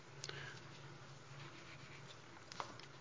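Writing on a board during a theology lecture: faint, soft scratching strokes with a couple of brief taps, quiet throughout and without talk.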